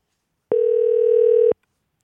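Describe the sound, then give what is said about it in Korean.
A telephone tone sounds while a call is being placed: a single steady mid-pitched tone lasting about one second, heard alone against silence. “0007님 전화 한번 걸어보겠습니다.”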